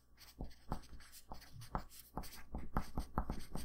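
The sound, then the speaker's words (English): Writing something down by hand, heard as a quick series of many short, scratchy strokes on a surface with small pauses between them, fairly faint and with no talking. “Actually, hold on. I need to write that down real quick.”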